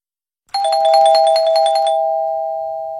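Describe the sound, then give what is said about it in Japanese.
A quiz-deadline chime rings out as an electronic bell: a quick run of bright, tinkling notes, then one sustained ringing tone that slowly fades. “クイズ締め切りのチャイムが鳴りました。”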